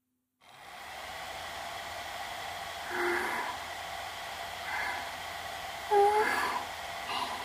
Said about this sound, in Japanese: ドライヤーの勢いは悪くないですよ。